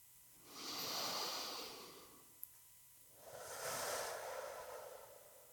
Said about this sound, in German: Ich atme ganz bewusst ein. Aus.